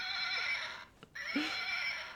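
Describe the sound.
A horse neighs as it is put away in a stable: a loud, high, wavering whinny that breaks off briefly midway and then resumes strongly.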